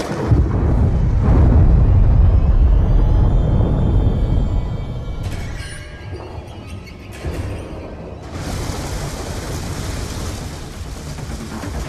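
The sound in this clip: A grenade explodes in Call of Duty Black Ops 2, a loud deep blast that rolls and rumbles for several seconds, then fades into scattered debris and crackling noise.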